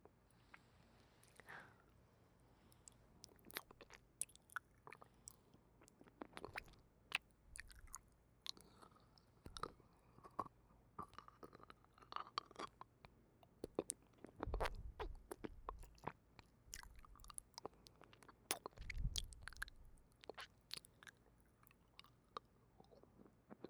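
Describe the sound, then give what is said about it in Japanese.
Someone eating: faint, close chewing with irregular crunchy bites and wet mouth sounds, scattered unevenly across a long stretch with no talk. “そうだ、これも食べてる音聞いてみたいでしょ。”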